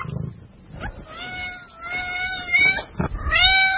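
A cat meowing as a child carries it to a cat bed to sleep: a few drawn-out, tonal, mid-pitched meows in the second half, following softer rustling and handling noises.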